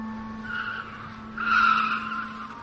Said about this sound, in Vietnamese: Tiếng thắng xe gấp lại.